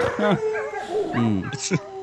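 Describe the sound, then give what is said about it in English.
A greyhound or whippet dog in a car commercial teaser gives a few short yips and whimpering, whining cries, high and bending in pitch, fairly loud with no talk over them. “The best part of this teaser video, though, has to be the Greyhound/Whippet at the end.”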